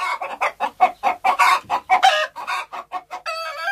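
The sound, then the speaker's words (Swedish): Hens that are loose outside their henhouse cluck in a rapid, uneven series of short calls, ending in a longer, drawn-out cackle. “Hönsen är ju inlåsta. Va? Hönsen är ju inte inlåsta.”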